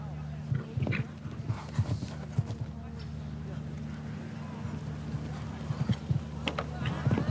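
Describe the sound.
A show-jumping horse gallops toward the first obstacle, its hooves making rhythmic thuds and clops under continuous talk.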